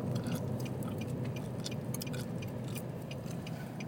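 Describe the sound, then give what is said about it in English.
Gum smacking from someone chewing gum: faint, irregular wet clicks and snaps over a low background hum. “sorry, I'm chewing gum and I'm a gum smacker, which is, I know, is not cool.”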